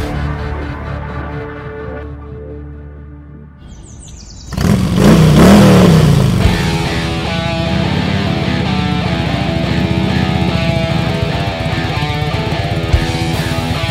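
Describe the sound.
A car engine revs from a quieter start into a loud roar partway through. The pitch sweeps upward, then settles into a sustained, strong drone that continues to the end.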